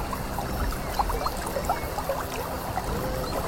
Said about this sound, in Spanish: que sale el agua, aquí le dicen el ojo del agua. El ojo del agua, porque hay mucha agua.